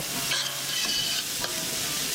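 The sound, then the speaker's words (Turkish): Onion and garlic sautéing in butter in a pot give a soft, steady sizzle, with a few faint stirring scrapes over the continuous frying hiss. “Doğradıktan sonra soğanı, sarımsağı tenceremize alıyoruz. Tereyağı ile beraber kavuruyoruz.”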